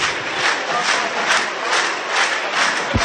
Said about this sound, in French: le public, hein, simplement, hein, scande le nom de Cyril Blanchard, hein, qui a été blessé à la 18e.